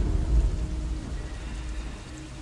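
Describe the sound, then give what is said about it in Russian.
Light rain beginning to drizzle outdoors around five in the morning, a soft, steady hiss of falling drops that stays faint and even throughout. “на улице начал накрапывать дождик”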